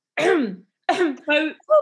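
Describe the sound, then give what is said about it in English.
Repeated throat clearing performed by a voice acting out a character: four short, rasping throat-clearing bursts separated by brief pauses, each gruff and voiced. “Ron clears his throat repeatedly with less conviction each time.”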